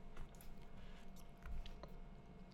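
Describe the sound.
Soft, moist chewing of a chewy food item from a sushi restaurant: faint, continuous squishy mastication with a few small clicks and no talk.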